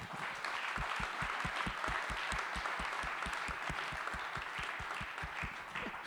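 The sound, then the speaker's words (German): Audience applause for a guest at a Jesus-Treff gathering, many claps falling into a steady, regular rhythm that keeps going throughout at an even level. “Beklatscht mal bitte Anja Flickinger.”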